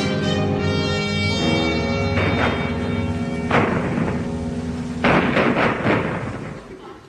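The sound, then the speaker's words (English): Artillery fire from the 1942 Battle of El Alamein: a few heavy booms burst out over a sustained droning tonal backdrop, spaced unevenly across the stretch. “Hear that sound, dear listeners? I wonder what it is. It was El Alamein,”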